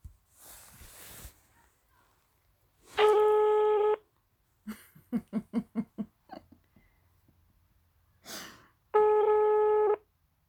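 Telephone dialing and ringing while placing a call: two steady one-second ringback tones, with a rapid run of short beeps between them.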